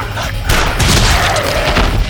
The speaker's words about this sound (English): The shot tore into the predator's side